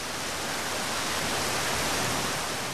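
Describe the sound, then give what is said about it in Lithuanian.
Heavy rain pouring down as a dense, unbroken roar of hiss that holds steady and even from start to finish, with no separate drops or other sounds standing out. “Ir staiga prapliupo lyti.”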